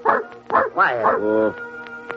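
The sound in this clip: A dog barks in a few short, bright bursts mixed with yips and a whimpering tone, fairly loud and close together, fading into quieter clicks at the end.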